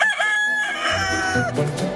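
A rooster crows from a poultry farm raising chickens and capons in the Baix Llobregat area. One long, strongly harmonic crow rings out clearly and alone for about a second and a half, followed by lower, rougher farmyard sound.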